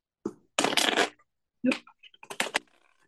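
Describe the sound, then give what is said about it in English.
A deck of angel cards is shuffled until a card pops out, giving several quick papery bursts of riffling and flicking at uneven intervals, moderately quiet with no voices. “the card is popping out. I love when that happens.”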